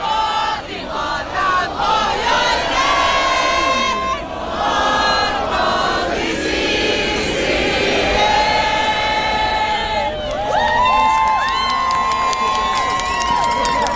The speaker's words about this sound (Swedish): Massor med folk var ute på torget och det lät på olika sätt. Vi har ett litet ljudklipp här då folk firar och sjöng Vårt